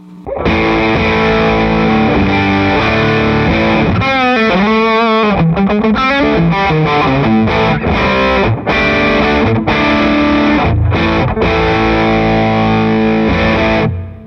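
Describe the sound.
An electric guitar plays through a RAT distortion pedal and amplifier, loud and continuous, with thick, fuzzy sustained chords and a run of wavering, bent notes in the middle.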